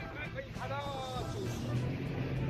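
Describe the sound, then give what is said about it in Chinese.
Jet ski engine running on the water, a low, steady rumble that stays faint, with a voice briefly heard over it. “各位听一下这个声音，哇，问一下教练，这个摩托艇能够开多大的马力？”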